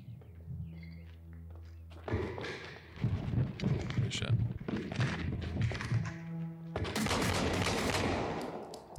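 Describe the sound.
Gunfire in a body-cam style shooter video game set in Ukraine: many rapid shots and bursts, with people talking over them.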